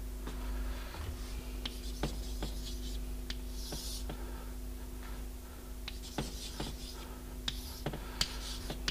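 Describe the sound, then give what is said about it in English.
Drawing a picture on a board: faint scratchy marker or chalk strokes and light taps come at irregular intervals over a steady low hum, with no talking. “And suppose, let me draw a picture. Let's draw it over here.”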